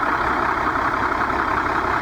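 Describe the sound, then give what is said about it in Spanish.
A bus engine runs with a steady, even drone that stays unchanged throughout, heard alone with no voices. “Un relojito ese motor, ¿eh?”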